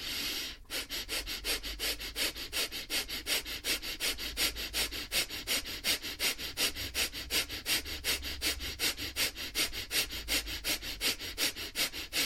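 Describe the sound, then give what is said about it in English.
Fire breathing, a rapid and forceful nasal breathing exercise: a long unbroken run of sharp, evenly spaced sniff-like bursts at a quick steady rhythm, loud and heard alone without talk. “You also have fire breathing, which I personally love to do. It will help to detox your system very quickly, and fire breathing sounds like this.”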